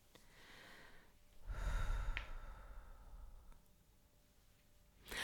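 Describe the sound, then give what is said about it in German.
A single soft exhale during a guided breathing meditation. The breath swells just after the first second and then fades slowly, faint and unhurried, with no talk over it. “Und ausatmen.”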